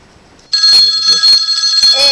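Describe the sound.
Telephone ringing as a listener's call comes in to a radio show: a loud, bright, high ring in pulsing bursts that begins abruptly after a quiet moment.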